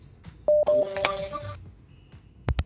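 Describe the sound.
A telephone number is dialled in a quick run of short touch-tone beeps, followed by two sharp clicks on the line.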